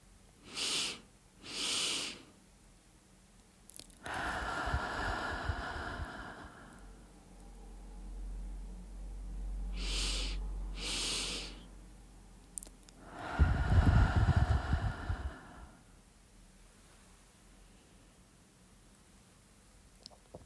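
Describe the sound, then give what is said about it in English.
Deep breaths drawn in through the nose and let out through the mouth, paced for relaxation. Each of two rounds has short sniffing intakes followed by a longer, hushed, breathy exhale, with no talking. “And let's do that 2 more times. In through the nose and out through the mouth.”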